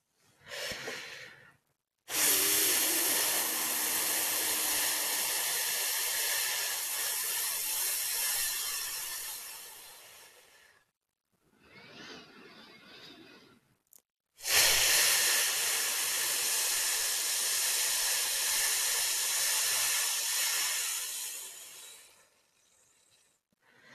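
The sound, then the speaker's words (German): Two long, steady exhales on an F sound, each a breathy hiss lasting about eight seconds, separated by a softer, shorter stretch of breath and near silence. “Und jetzt atme tief ein und atme fast ohne Ton aus dem Laut F aus.”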